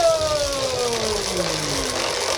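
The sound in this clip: A game-show prize wheel turns on a big spin, its whirring tones sliding steadily downward in pitch as it slows, over a noisy background.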